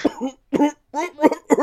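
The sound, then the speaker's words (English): A voice imitates a coughing fit: a quick run of harsh, voiced, cough-like bursts with short gaps between them, loud and fairly even in strength. “The coughing fit at the end is hilarious.”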